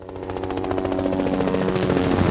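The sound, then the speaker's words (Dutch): Trauma helicopter taking off from a hospital in Amsterdam: a steady, rapid thump of rotor blades over a broad engine roar, slowly growing louder. “Lifeliner 1 stijgt op vanaf het VU Medisch Centrum in Amsterdam. De traumahelikopter reageert op een alarm”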